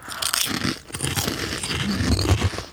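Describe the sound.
Crisp crunching of onion-and-spice flavored lentil chips being bitten and chewed, a dense, continuous run of dry, brittle crackles and crunches with no talking.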